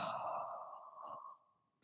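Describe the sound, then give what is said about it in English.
Forceful exhale through the mouth during a breathing exercise in a spinal mobility workout: a single breathy sigh that starts strong and tapers away over about a second and a half. “Then again, a breath in through your nose. This one let out through your mouth with some emphasis.”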